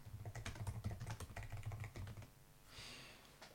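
Fast, quiet typing on a computer keyboard: a rapid run of light keystrokes, then a pause with only a soft rustle.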